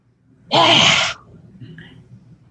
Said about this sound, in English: you inhale through the nose, and then you stick out your tongue, and you exhale even with a noise.